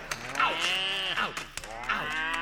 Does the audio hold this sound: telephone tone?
no